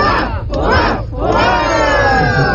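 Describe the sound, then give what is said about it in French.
A crowd of Greenlanders gives a heartfelt hurrah cheer, a rapid series of loud, rough shouts from many voices, the last held and trailing off. “Cette posture a été appréciée par les Groenlandais qui l'ont récompensé par un hourra venant du cœur.”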